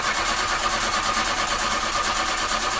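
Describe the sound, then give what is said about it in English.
A car engine tries to start, a loud, steady mechanical churn that holds without a break and with no voices. “When your car sounds like this,”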